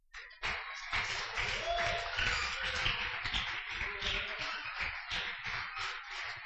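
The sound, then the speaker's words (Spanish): An audience claps for the Lord during a church sermon: a dense, fairly quiet patter of hand claps that starts suddenly and keeps going with an uneven, pulsing texture. “Aplaudí al Señor.”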